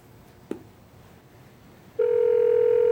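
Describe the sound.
Telephone call being placed to a factory manager: a single sharp click, a short quiet pause, then a steady, continuous dial tone that holds unbroken to the end.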